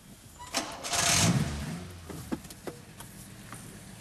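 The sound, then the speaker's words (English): A car engine starts and pulls away at green lights during a driving lesson. It swells to a loud, broad roar within the first second and a half, then settles into a steadier running engine with a few sharp knocks. “Release the handbrake and off we go again.”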